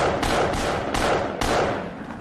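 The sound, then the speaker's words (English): Gunshots as a person is shot several times: a few broad, noisy blasts stand out against a dense, continuous rumbling background, with no clear pauses between them. “So now she just shot him like 5 times.”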